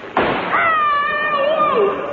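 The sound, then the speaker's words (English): A gunshot fired into a mattress: one sharp, muffled thud-like burst near the start, then a long, loud, wavering voice-like cry. “I had shot him in his mattress.”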